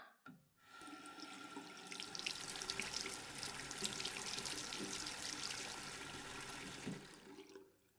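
Hot water runs into a washbasin in a steady, hissing stream that starts abruptly, holds evenly for about six seconds, then cuts off and fades.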